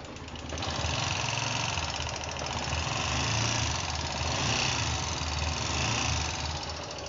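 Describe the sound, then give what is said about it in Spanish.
A vehicle engine idles with an abnormal ticking knock from an intake rocker arm with excessive play, a rough, steady mechanical clatter that holds constant throughout with no voices. “Epechi 164 con ruido de motor.”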